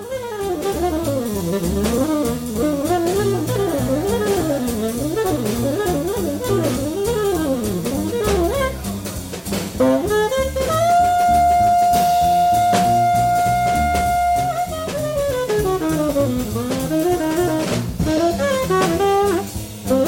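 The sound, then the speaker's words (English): A tenor saxophone plays a solo in a live jazz recording, with fast winding melodic runs, a long held note in the middle, then more rapid lines over a steady, full rhythm section. “But no, we're going to drop a saxophone solo on you.”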